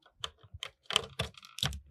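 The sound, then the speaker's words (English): A memory card being plugged into a PS2 console gives many faint, quick plastic clicks and scrapes in an irregular burst, with short gaps between them. “I just want to do some ASMR quickly. This is a memory card plugging into a PS2.”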